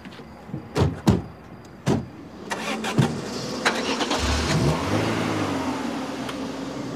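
A car pulls away after people get in. A few sharp knocks come first, then the engine starts and revs up, its hum rising in pitch before holding steady.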